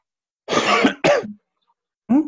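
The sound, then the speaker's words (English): Coughing and throat clearing: two harsh, loud bursts close together, a short silence, then a third shorter bark, with no talk around them. “you just coughed and interrupted.”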